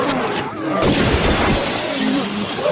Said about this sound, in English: Quick, shoot out that window!